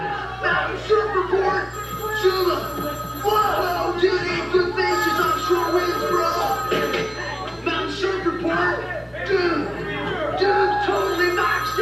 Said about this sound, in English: Bring, bring, bring, bring. You've reached the voicemail box of